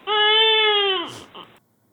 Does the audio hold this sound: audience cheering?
no